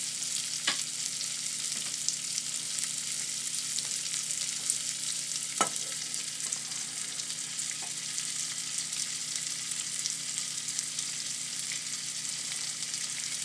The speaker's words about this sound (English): Okay, I'm going to add the raisins and chopped up apricots.